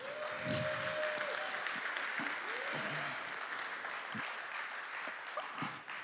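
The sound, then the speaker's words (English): Church audience applauding, a dense, steady wash of clapping that holds at full strength for the whole stretch, with some voices rising over it. “Come on, let's put our hands together for Pastor Josh.”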